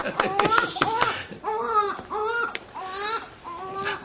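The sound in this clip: A newborn baby cries in a series of wailing, rising-and-falling sobs, loud and steady with brief breaths between them, without any clear talk.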